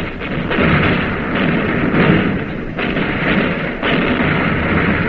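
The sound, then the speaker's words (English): Wartime naval gunfire as a warship's shells hit an enemy cruiser: a constant heavy rumble broken by a few dull booming blasts, with no voices. “Now the shells are hitting the enemy cruiser. You can see them swimming through the air like little bugs and then disappearing into the Jap warship with a searing red blast of flame.”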